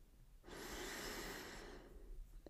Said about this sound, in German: Atme einmal tief ein